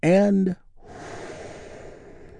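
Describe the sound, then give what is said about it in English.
A group draws a big, deep breath together: a brief voiced sound opens, then a long, soft, airy inhalation that holds steadily to the end. “This is our 5.5 minute touchstone for today's healing moment of Zen, where we get to take a big, deep, healing breath all together. Here we go.”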